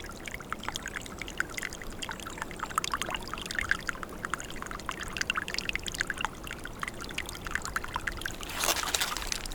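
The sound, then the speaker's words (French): A thin trickle of water flowing through a forest makes a soft, continuous gurgling and babbling, faint and even throughout, with a slightly brighter splash near the end. “Au milieu de la forêt, glisse un filet d'eau.”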